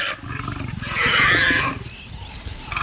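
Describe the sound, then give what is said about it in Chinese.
Deep, rumbling roars and growls from three hungry, thin lions feeding over a fresh kill. The sound is continuous and loud, swelling to its strongest roar midway before easing back to lower growling. “不管油猪怎么顽强抵抗，也摆脱不了被吃掉的结局。三只饥饿消瘦的狮子获得了急需的一餐，”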